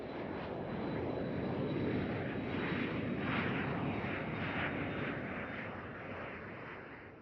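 An airplane taking off produces a broad, steady engine roar that swells gradually through the middle and then eases slightly toward the end.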